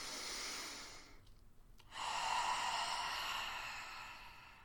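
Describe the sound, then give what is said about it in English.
A deep human breath: a long, airy rush of breath, a brief silent pause, then a second, fuller breathy rush that slowly fades, steady and unaccompanied by speech. “I like to take a breath before I listen to something that's going to, you know, speak to me. So I'm going to go ahead and take a breath.”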